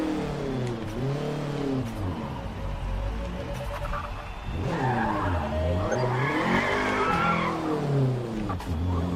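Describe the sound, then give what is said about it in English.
A car spins out in a racing video game: the engine revs with a rising and falling whine while tires squeal and skid, loud and continuous throughout with no talking. “I think I spun out.”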